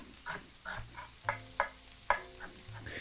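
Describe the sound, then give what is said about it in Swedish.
Corn sizzles in a frying pan as it turns golden and starts to pop, while a utensil stirs it in a few soft scraping strokes over the faint, steady crackle. “Jag går och rör lite i den majs här.”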